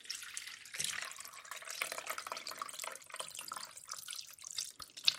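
Raspberry, ginger and rhubarb infused gin poured through a sieve: a continuous watery trickle and splashing with small drips, uneven in level, with no talk.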